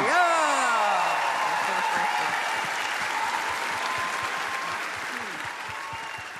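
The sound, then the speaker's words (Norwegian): A studio audience applauds this year's honorary music prize winner as he is introduced on a culture programme, with dense, even clapping that slowly eases off. “I alle tilfeller så må ikke applausen bli mindre når vi introduserer årets hedersprisvinner, Arve Tellefsen!”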